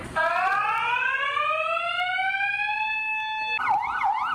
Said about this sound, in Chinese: 邮局行员第一时间冷静按下警铃，并通报警方。